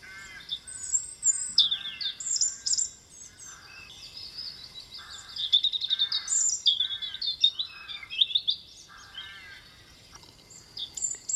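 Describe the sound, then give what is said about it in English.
A blue tit sings bright, high, repeated chirping phrases while rooks squawk with rough, harsh caws in the background. The bursts come in irregular runs throughout, with no talking. “if you can blot out the rooks which are squawking away in the background and are rather irritating blue tit, but focus in on it.”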